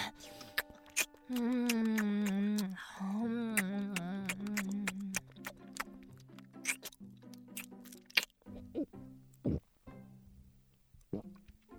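Someone eats a home-cooked meal, with sharp, wet chewing clicks and crunches in an uneven rhythm, interspersed with drawn-out voiced murmurs of enjoyment.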